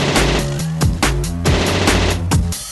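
Machine-gun fire sound effect: a loud, dense, continuous rattle running throughout, layered with sustained musical tones and punctuated by a few heavier hits.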